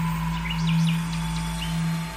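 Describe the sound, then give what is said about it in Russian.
Swifts chirping high in a hot summer sky: a few quick, high twittering calls rising and falling, fairly faint over a steady low hum. “а где-то высоко в небе поют стрижи.”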